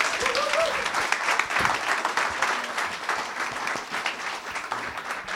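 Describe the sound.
An audience applauds to welcome a reverend as guest speaker, a continuous crackle of many hands clapping that holds fairly steady, swelling and easing slightly without any clear voices.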